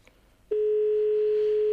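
A telephone tone sounds on a ministry's phone line while the call goes unanswered. After half a second of faint hiss, a single steady tone starts abruptly and holds unbroken to the end.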